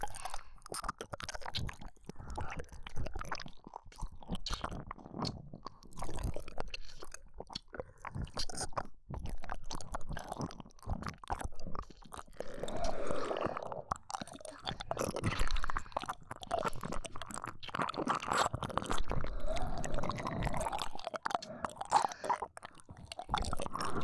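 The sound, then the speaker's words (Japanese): Wet licking and mouth sounds of a nipple being licked in an erotic roleplay recording. A continuous, close stream of smacks, slurps and squishy noises runs throughout, with no talking. “ここも舐めてほしいんですか。いいですよ。”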